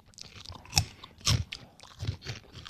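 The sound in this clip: Crunching bites and chews of a crunchy, unusually firm, worm-shaped snack resembling thick spätzle and smelling faintly of fermented milk, heard as several irregular crisp bursts over continuous softer chewing.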